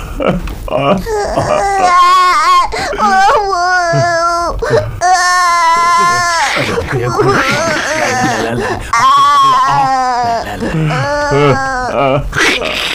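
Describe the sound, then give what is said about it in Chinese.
An elderly person cries and wails loudly, in a long run of sobbing bursts with a wavering, quavering pitch. Short breaths and sniffs break the sobs apart, and the crying lasts the whole clip. “老施主，你别哭了，你有什么事尽管说嘛，哭什么呀？”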